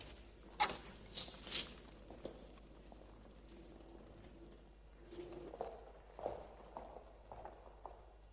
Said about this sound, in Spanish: La psicóloga camina por la catedral después de que un grupo de turistas se marche.